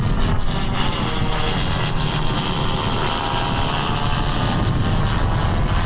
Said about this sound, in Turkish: Akıncı Tekirdağ Çorlu'daki pistten bu kez Roketsan'la STM yapımı Alpagut mühimmatıyla havalandı.